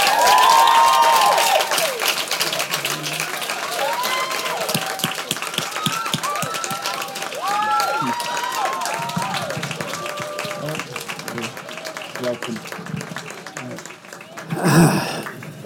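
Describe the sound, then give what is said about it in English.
An audience applauds director David Cronenberg and Robert Pattinson, star of Cosmopolis, with sustained clapping and cheering throughout. Voices carry over the crowd noise, and a short louder burst comes near the end. “Ladies and gentlemen, please put your hands together for the director and star of Cosmopolis, Mr. David Cronenberg and Robert Pattinson.”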